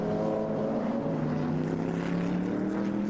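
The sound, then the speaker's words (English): Racing car engines droning during an endurance race: a loud, steady, multi-toned engine hum with strong harmonics that shift slightly in pitch, no voices. “Cars still sounding brilliant.”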